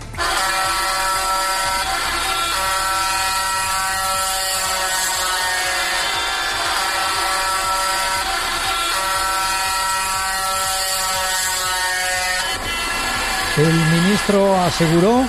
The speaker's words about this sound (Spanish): Este era el sonido de la manifestación por las calles de Cádiz.